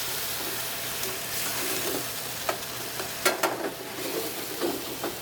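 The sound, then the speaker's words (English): Sun-dried tomatoes sizzle in a hot pan for a Marsala-style sauce, a steady loud frying hiss broken by several sharp crackles and pops. “Some sun-dried tomatoes in there. Give that a little flip. Give that a little flammage.”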